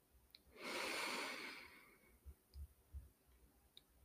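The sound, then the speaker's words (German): A deep breath drawn in through the nose, one long, soft, steady rush of air, followed by a few faint ticks and low bumps. “schließ gern deine Augen und nimm ein paar tiefe Atemzüge durch die Nase ein”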